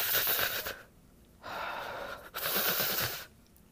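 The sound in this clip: A voice imitates a dying grandmother gasping for oxygen through quivering lips, taken off life support. It makes two long, raspy, breathy gasps separated by a short pause.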